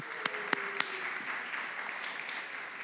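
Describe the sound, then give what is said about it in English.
An audience at a morning worship gathering claps to welcome a doctor back from Guatemala. The faint, steady patter of applause has a few sharper claps near the start. “Welcome back from Guatemala, Dr. Herb. Good to have you. Give him a hand.”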